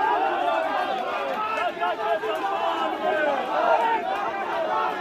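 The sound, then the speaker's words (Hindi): Akhilesh Yadav's supporters chant slogans outside the Samajwadi Party office, a dense, continuous mass of overlapping voices that stays loud and steady throughout. “अंदर Mulayam Singh Yadav press conference कर रहे थे और बाहर अखिलेश यादव के समर्थक नारे लगा रहे थे।”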